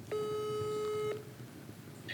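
A telephone call ringing out: one steady, faint ring tone lasting about a second, then only quiet line noise.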